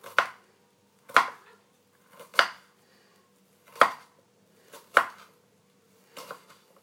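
Knife chopping an onion, about half of one, in slow, evenly spaced single strikes, roughly six sharp taps with quiet gaps between them and no talk.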